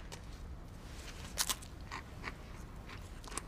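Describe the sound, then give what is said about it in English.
Crisp bites and chewing on a dry saltine cracker: a few sharp, brittle crunches stand out near the middle, with softer crackling chews around them. No voices are heard. “I wanted to eat a saltine. Oh, I actually have some saltines. Here, try this.”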